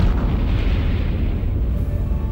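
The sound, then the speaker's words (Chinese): Deep, continuous rumbling roar of a test detonation after a countdown, loud and sustained from start to end without a clear single blast. “五、四、三、两、幺，起爆！”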